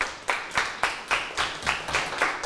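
A school class claps for a classmate in a lesson on toothbrushing and tooth decay. The claps come as many distinct, evenly spaced group bursts in a steady beat.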